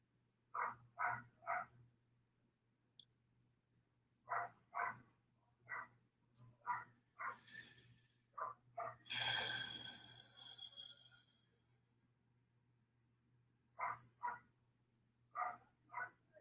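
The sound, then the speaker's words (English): Faint dog barking in short bursts of two or three, repeating several times over a low steady hum, with a breathy noise in the middle. “I'm sorry, there's a dog barking. Can you guys hear that?”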